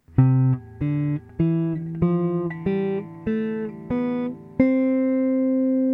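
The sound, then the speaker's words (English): A C major scale played ascending on guitar: eight plucked notes, each ringing briefly before the next, step upward evenly in pitch, with the final C sustaining longest. “We'll start with the C scale, and it's C, D, E, F, G, A, B, and C, and it sounds like this.”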